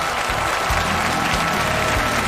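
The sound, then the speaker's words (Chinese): Audience applause greets the champion team as they arrive on the main stage of a Chinese poetry contest final. Dense, steady clapping fills the whole clip without a break. “让我们掌声欢迎诗词大会冠军团。”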